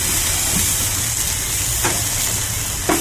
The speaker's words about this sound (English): You just heard him hit the grill. All right. And the flames.